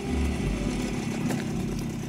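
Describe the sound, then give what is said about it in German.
The engine of an original Yugoslav Tomos motorcycle, at the start of a road trip through Croatia, runs with a steady mid-pitched drone that holds at an even level throughout. “Wie könnte ein Roadtrip durch Kroatien schöner beginnen als auf einem Originalmotorrad der jugoslawischen Traditionsmarke Tomos?”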